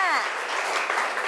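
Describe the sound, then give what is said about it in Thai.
Classroom applause for student groups: many hands clap in a steady, moderately loud patter after a brief voice at the start. “ขอปรบมือเป็นกำลังใจให้กับทุกกลุ่มค่ะ”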